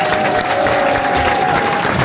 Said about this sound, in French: Et en tout cas, c'est un plaisir d'être applaudi juste parce qu'on a pissé.